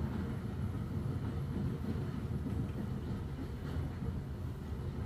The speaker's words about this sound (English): maybe the rhythms of the train over the tracks.